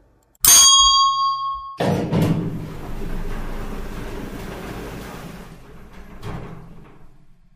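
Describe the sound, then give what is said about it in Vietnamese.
An elevator arrival ding rings out once, bright and sustained, as the car reaches its floor. Then the doors slide open with a long, low rumbling whoosh that slowly fades, broken by a soft bump near the end. “Cuối cùng, thang máy cũng đến tầng. Một tiếng đinh vang lên và cánh cửa từ từ mở ra.”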